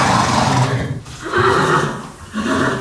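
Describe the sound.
Horses neighing in a stable of champion horses, with a few loud, drawn-out whinnies separated by short dips. No voices can be heard over them.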